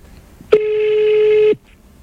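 A telephone call goes unanswered as a single steady ringback tone sounds for about a second, loud and even in pitch, then stops into near silence.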